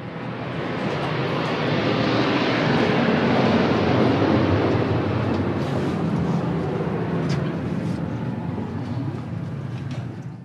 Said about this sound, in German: Im Hintergrund startet der nächste Flüger.